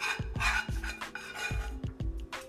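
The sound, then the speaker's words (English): A spoon scrapes and stirs beans and garlic in a pan on the stove to go over macaroni, making many soft, rhythmic rasping strokes with light clinks, faint and alone. “let me mix this fucking beans and garlic. It ain't even a lot of beans.”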